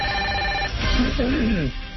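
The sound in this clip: A telephone rings for an incoming call with a steady electronic tone that cuts off after a moment. Talking starts right away and carries on to the end.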